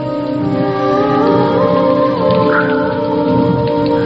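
Heavy rain pours during a stormy night on a road, a loud, even, unbroken hiss with a low steady hum beneath it throughout.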